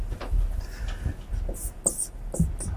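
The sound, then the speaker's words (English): Writing out a math solution: scratchy strokes with a few sharper high squeaks, fairly quiet and irregular. “So we've now solved the problem. We can write down the solution.”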